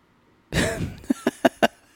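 Someone coughs to clear something caught in the throat: one long, raspy hacking burst, then four short, sharp coughs in quick succession, all fairly faint and with no talk.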